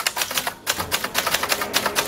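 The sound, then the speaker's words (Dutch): Keys hammered on one of a row of orange manual typewriters set up in a public library in Zwolle: a rapid, uneven clatter of many sharp keystrokes with brief pauses, loud and with no talking. “Hij zette in een biep in Zwolle een hele rits oranje typemachines neer. En daar kunnen mensen dan lekker rammen op die toetsen.”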